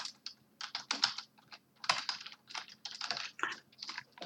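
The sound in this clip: Typing on a computer keyboard: rapid, uneven bursts of keystrokes, with clusters of quick taps separated by short pauses. No one speaks.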